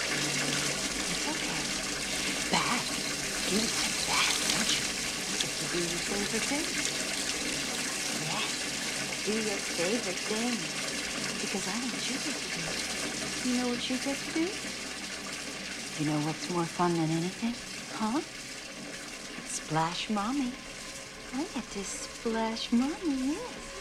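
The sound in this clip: Water runs steadily from a bathroom tap in a continuous hissing stream, with voices breaking in intermittently over the flow, especially toward the end.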